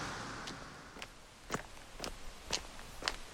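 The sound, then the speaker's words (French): Footsteps of a person walking: six even, crisp steps land about half a second apart. They are faint and sound alone, with no talk. “Quand je pense que là, je suis peut-être en train de marcher dans les pas de Bakounine”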